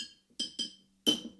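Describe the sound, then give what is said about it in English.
Three sharp glassy clinks as glass soda bottles are smacked. The first two come close together and the third follows a short pause, each ringing briefly and fairly loud. “You're just smacking bottles.”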